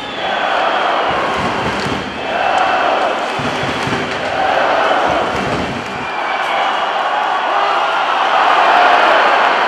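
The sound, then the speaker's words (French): Belarusian hockey crowd cheering inside a packed ice rink with pom-pom girls performing, a steady loud roar that swells and dips over several seconds, with faint low thumps beneath. “La patinoire est toujours bien remplie. Les pom-pom girls s'agitent. Et le public biélorusse s'enflamme.”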